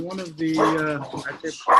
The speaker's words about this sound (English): Hey, we have dogs barking as in a sign of this is really life.